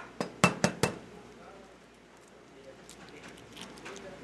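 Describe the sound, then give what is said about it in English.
Eggs are cracked on a flat surface, the whites and yolks separated into bowls: a quick run of four sharp knocks and clinks opens, then only faint low handling sounds follow. “cracks open an egg and lets the white spill into one bowl. Then he plops the yolk into a different bowl. He repeats this with two more eggs.”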